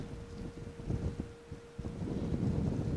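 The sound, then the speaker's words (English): Wind blows across rocky moorland with heather and scrub, its low gusts buffeting the microphone and swelling and easing in quiet, uneven surges. “At the moment there's just me and the wind.”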